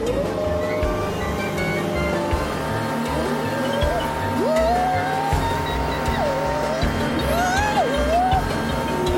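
A small utility vehicle's engine drones as it pulls away under hand-throttle on a sports field. A tonal whine repeatedly rises and dips in pitch over a constant low rumble.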